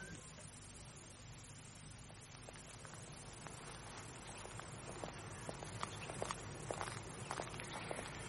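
Faint footsteps of two people walking back together: soft, irregular steps over a low hum, becoming more frequent in the second half.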